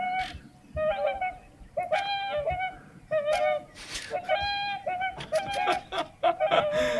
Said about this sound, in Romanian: Bă, voi ați auzit cum cântă o lebădă? Nu. Ia, caută. Swan singing,